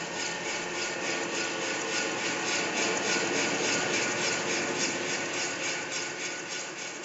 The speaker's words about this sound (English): For example, we've got some wind turbines that sounded like this when recorded raw, and they sound like this after the treatment.